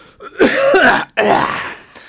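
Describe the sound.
Throat clearing from a tickle in the throat: two rough, gravelly bursts close together, loud and with no talk over them.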